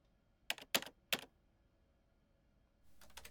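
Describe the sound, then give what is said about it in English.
Computer keyboard keystrokes while an email is typed: three crisp, quiet clicks in quick succession, a pause, then a faint, softer flurry of keys at the end. “It seems you're writing an email.”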